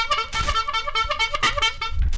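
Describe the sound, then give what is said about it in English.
Car horns honk over and over in a loud, overlapping blare of steady tones that runs without a break for about two seconds, with no talking. “Wow. That's a lot of honking. There's a lot of horn on this show today.”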